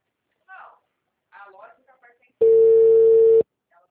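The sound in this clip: A phone call being placed on WhatsApp: a few brief, soft vocal fragments, then a single steady ringing tone lasting about a second before it stops.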